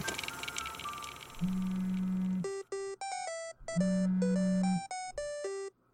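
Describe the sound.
A telephone ringing with an electronic melodic ringtone: a run of short, bright tones played twice, each round paired with a low buzz, over faint background noise and no talk.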